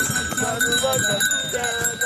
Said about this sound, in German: wurden die Pferde mit allerlei bunten Bändern, Perlen und Glöckchen dekoriert. Für 20 Lira, also umgerechnet etwa 3,50 Euro, geht es im lockeren Trab aufs Eis.